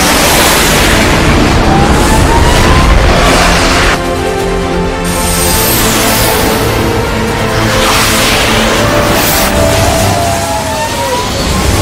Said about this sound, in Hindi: Target lock confirm. रहम की जरूरत नहीं, फायर करो।